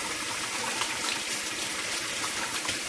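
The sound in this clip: Tap water runs steadily as hands are washed beneath it, a continuous bright hiss and splatter at an even level from start to finish with no breaks.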